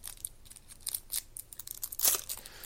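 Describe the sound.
Crinkly tearing as a pack of football trading cards is ripped open: many quick, faint crackling bursts of wrapper, growing loudest near the end, with no talking.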